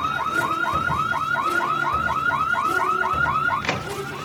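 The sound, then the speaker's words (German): A system alarm going off: a loud, continuous electronic warble that repeats rapidly and evenly, like a car alarm siren. It sounds alone, without voices. “Was ist denn jetzt los? Systemalarm!”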